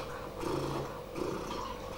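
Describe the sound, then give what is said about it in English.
A voice imitates a happy cat purring, producing a steady, low rolling rumble that runs for about two seconds with a slight swell in the middle. No other sounds are heard. “You know what cats do when they're happy? They purr. You know how they purr?”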